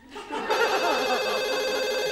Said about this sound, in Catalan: El telèfon.